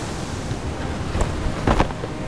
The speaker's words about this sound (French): Et j'eus l'impression, en prononçant ce mot, que les vagues dehors claquaient un peu plus fort.